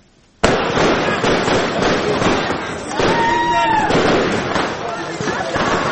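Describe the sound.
Fireworks burst over a street celebration of an Olympic gold win in the theatre square of Gori. Dense, continuous crackling and popping start abruptly after a brief quiet moment, with a whistling rocket tone midway and crowd voices mixed in.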